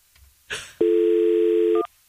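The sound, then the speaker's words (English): A telephone call being placed: a short click and rustle, then a steady, loud dial tone hums for about a second before cutting off abruptly. “Calling my wife, Vanessa. See if she'll answer the phone.”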